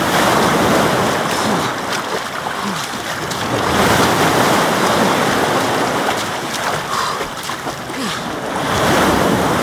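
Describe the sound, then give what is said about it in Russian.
Metre-high sea waves roll toward a pebble beach, making a loud, continuous roar of surf mixed with wind noise that swells and eases slowly. “Ребята быстро плывут кролем в сторону берега. Их нагоняют и приподнимают метровые волны.”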